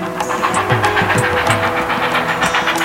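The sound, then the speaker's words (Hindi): Train journey sound effect for a rail trip to Madras: a loud, continuous rumble with a rhythmic clatter of wheels and a steady hiss, heard alone without talk. “Padmanabha ने मद्रास की अपनी पहली train यात्रा शुरू की।”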